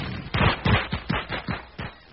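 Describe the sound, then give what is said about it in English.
Fourth of July fireworks explode in a quick, fairly faint string of several sharp, booming bursts at even spacing, with no voices. “Taylor's Fireworks is rolling back prices on the best fireworks.”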